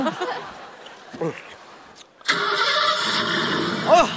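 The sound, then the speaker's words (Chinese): A car engine starts: after a quiet stretch with a few brief soft sounds, it catches abruptly and then runs at a loud, steady idle roar to the end. “要不先把车启动一下呢？”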